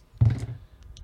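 Dice rolled for a tabletop game's loot table land with a single low thunk, followed by a couple of faint, light clicks as they settle.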